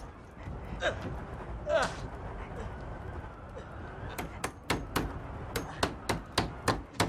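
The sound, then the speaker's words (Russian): A hammer drives nails to fix wooden boards across a door that has no latch. After a stretch of low noise and a couple of brief breathy sounds, a fast series of many sharp, loud blows follows. “Щеколды нет, заколотите. Нужно досками прибить. В двери гвозди и молоток.”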